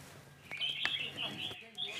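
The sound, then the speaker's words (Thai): Red-whiskered bulbuls calling at a breeding farm that houses hundreds of the birds in Khlong Hae, Hat Yai, Songkhla; faint, high, repeated chirps and short whistled notes. “นกประหลอดหัวโขนหรือนกกรงหัวจุกนับร้อยตัวนะครับถูกเพาะเลี้ยงในฟาร์มเพาะเลี้ยงที่ตำบลคลองแหมอำเภอหาดใหญ่จังหวัดสงขลาครับ”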